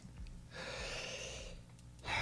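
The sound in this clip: A deep breath picked up by a microphone pressed to a sick person's chest, where a slight wheeze is noted: a long rushing breath swells and holds steady, then fades, and a second breath begins loudly at the very end.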